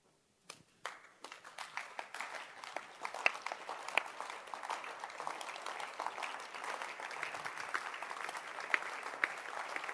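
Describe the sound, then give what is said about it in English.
Audience clapping breaks out after a moment of near-silence and builds quickly into dense, steady applause of many hands that continues evenly to the end. “Please, don't clap. Show the clap in your work.”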